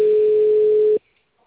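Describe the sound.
A telephone dial tone sounds as a caller redials: a single steady, unbroken mid-pitched tone holds for about one second, then cuts off abruptly into silence.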